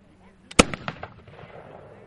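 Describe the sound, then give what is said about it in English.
A period gun is fired at a historical demonstration during an outdoor celebration: one sharp, loud crack followed by a short crackling, rumbling tail that fades within a second. “There were demonstrations at the celebration, like the man shooting a gun from that time.”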